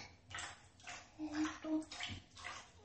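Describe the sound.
Warm water is poured and splashed while a person is washed, soft sloshing surges arriving in several uneven waves, faint and without talk.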